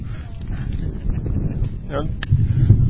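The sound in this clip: Wind blows across a microphone outdoors, a continuous muffled low rumble that buffets and swells unevenly and fills the whole stretch.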